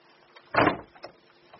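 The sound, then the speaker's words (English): Door being shut with a single short, dull thud, moderately loud, followed by a couple of faint small knocks. “I've got to shut the door.”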